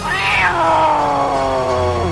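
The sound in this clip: A cat gives one loud, drawn-out meow that starts high and slides steadily downward in pitch, holding a strained, wailing tone to the end.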